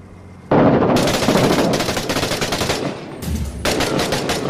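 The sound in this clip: Automatic gunfire in the video game Six Days in Fallujah erupts abruptly in loud, rapid, sustained bursts, drops off briefly, then resumes just as fast and heavy.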